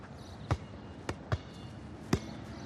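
A basketball bouncing during a casual game of horse: four sharp thuds at uneven intervals, fairly quiet, with no voices over them.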